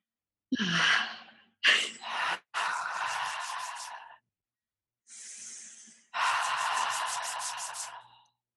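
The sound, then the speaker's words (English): Deep inhales taken through hands cupped over the face to breathe in an essential oil: a few long, breathy rushes of air separated by brief pauses, fairly quiet and with no talk. “We're going to put our hands, cup our hands to our face and just take 3 deep inhales.”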